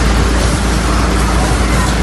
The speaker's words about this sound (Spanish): Es el sonido de un fuego que puede tener un origen intencionado en los tres rebrotes registrados en los términos de Piedralaves, Navaluenga y La Adrada en Ávila